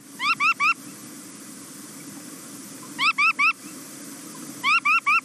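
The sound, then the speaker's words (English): Calls of a red knot shorebird: three bursts of three short, rising, whistled notes each, evenly spaced, over a faint steady hiss. “And the tiny bird that you're talking about is the red knot. Let's first hear from the red knot. Here's the sound of one.”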